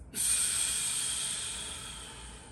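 A deep breath drawn in loudly and held at the top: a steady, airy hiss that begins abruptly and carries on for over two seconds, fading only slightly, with no talk.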